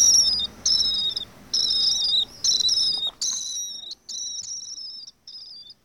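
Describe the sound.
Shrill, high screeching calls of a young swift that had fallen from its nest, repeated in a series of short bursts with brief gaps. The calls are loud and unaccompanied, with a low background rumble in the first half that then fades away.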